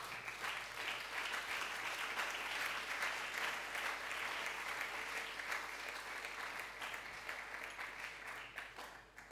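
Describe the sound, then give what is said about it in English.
A church audience claps their hands in praise, producing a steady, dense wash of applause that holds strong for several seconds before tapering slightly at the end. “It's a good place for you to clap your hands for the Lord.”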